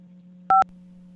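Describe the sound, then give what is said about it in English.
A single short dual-tone telephone beep as a call goes through to a consulate in London, sounding clearly over a steady low hum. “I actually have London on the phone to confirm this.”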